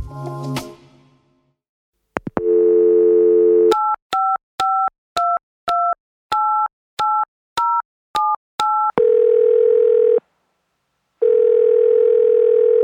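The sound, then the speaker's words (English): Telephone number being dialed: a click and a steady dial tone, then a quick run of short, evenly paced two-tone beeps, followed by a long low tone, a brief pause, and the tone again. “The sound of a number being dialed on a telephone is instantly recognizable.”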